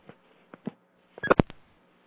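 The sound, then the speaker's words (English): A telephone number is dialed as a quick series of short, sharp key presses, sparse at first and then bunched closely together, fairly quiet with no talk. “we're going to call her from 219.”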